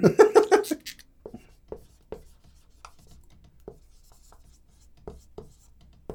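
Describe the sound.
A pen scratches on paper in short, separate strokes, a few dry scrapes spread unevenly over several seconds. A brief burst of voice comes right at the start, and then the writing continues alone and quietly.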